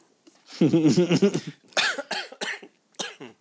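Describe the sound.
Coughing and throat clearing from someone with a piece of candy stuck in the throat: a rough, voiced throat-clearing rasp followed by several sharp, loud coughs in quick, uneven succession.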